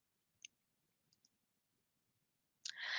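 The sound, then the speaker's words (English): A computer mouse clicks faintly in a quiet setting, with a single click and then two quick ones in succession. A louder burst of noise arrives near the end. “Now I can click on Add Trigger and trigger the pipeline.”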